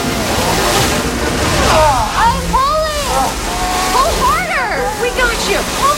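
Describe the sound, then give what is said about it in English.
Hot pressure-washing water sprays in a loud, continuous rushing hiss, with excited voices shouting over it. “Hot pressure washing commencing.”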